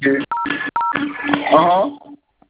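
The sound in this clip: Telephone keypad dialing tones: two short dual-tone beeps sound while a person talks.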